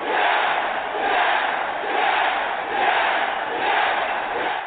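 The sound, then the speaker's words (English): A large wrestling arena crowd at WrestleMania chants excitedly in a steady rhythm. The massed roar swells and dips about once per second and continues unbroken throughout. “that sound you hear is everyone happy that we are wrong. Everyone chanting that we are wrong and being excited that, you know, The Undertaker did in fact return at WrestleMania.”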